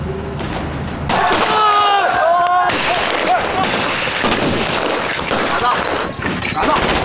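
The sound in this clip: Heavy gunfire in a shootout, dense and loud, with continuous overlapping bursts of shots and cracks that fill the whole stretch without a pause.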